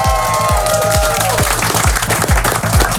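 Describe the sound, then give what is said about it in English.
An audience claps and cheers continuously and loudly over a pulsing music track with a steady, thumping kick drum beat. “Make some noise for this guy. Come on.”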